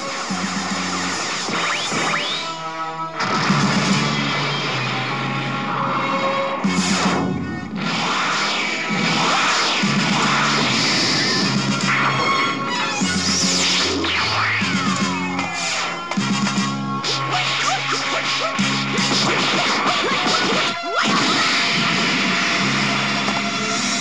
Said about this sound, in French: Il bondit, décoche les rafales de boules de feu, esquive les frappes de ses adversaires.